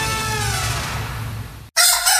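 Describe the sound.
A rooster crows in one long, loud, drawn-out call for an advert. The crow cuts off abruptly into a different bright, noisy sound.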